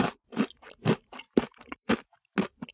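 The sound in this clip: Crunching while eating sweets, a quiet series of many short, crisp bites and chews separated by brief silences.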